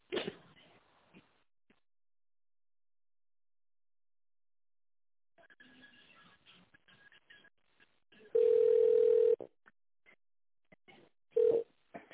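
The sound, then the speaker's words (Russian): Telephone ringing tone while a caller holds on a company's phone line: one steady, mid-pitched tone about a second long, then a second tone cut short, between faint, muffled, broken sounds. “Если вы знаете внутренний номер сотрудника, нажмите 0 и наберите его, или оставайтесь на линии.”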